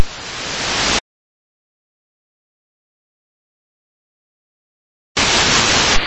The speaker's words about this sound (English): I'm still getting the carrier signal louder than the voice